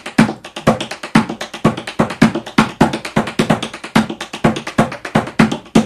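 Tap dance heel, paddle and roll steps make a fast, unbroken run of crisp taps. The rhythm is steady and driving, with many evenly spaced hits and no voices.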